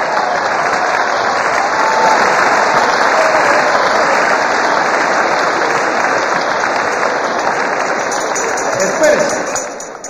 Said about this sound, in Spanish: Abreviemos el aplauso y el comentario